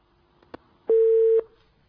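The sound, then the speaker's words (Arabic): A phone-in call is cut off: a faint click, then a single steady mid-pitched telephone tone lasting about half a second, heard alone. “انقطع الاتصال. طب يعاود بنا الاتصال مرة أخرى.”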